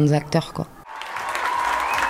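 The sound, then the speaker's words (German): After a brief spoken voice, a theatre audience breaks into applause and a standing ovation after a performance by young actors, dense clapping that holds steady for just over a second. “Nach der Vorstellung gibt es Applaus und Standing Ovations.”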